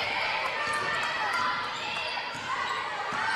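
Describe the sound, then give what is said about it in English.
A basketball is dribbled repeatedly on a gym court during a high school girls' game between Glenwood and Palisade, the bounces sounding under continuous crowd noise and an announcer's talk. “Crossover dribble.”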